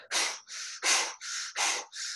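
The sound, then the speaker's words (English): Rapid, forceful exhalations through the mouth in a breathwork demonstration: six breathy whooshes in a steady, even rhythm, each lasting about a third of a second, clear and alone with no talking. “50 breaths in through the nose. So it sounds like this. 50 breaths out through the mouth, sounds like this.”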